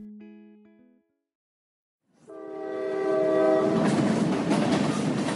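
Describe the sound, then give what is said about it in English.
A powerful train locomotive sounds a loud, sustained horn over a rising rumble of rolling wheels and cars. A short tonal sound and a brief silence come first. “Do you recognize that sound? That is the sound of a powerful train, also called a locomotive.”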